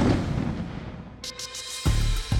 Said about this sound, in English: the other officers didn't dare go near him for fear that it might actually explode. And then it did.